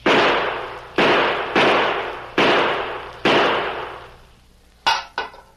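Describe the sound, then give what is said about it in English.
Five gunshots are fired at a tin can on the ground near a cistern wall. Each is a loud crack with a long, fading tail, and two short, sharp knocks follow at the end. “Five bullets can put that tin can into the well.”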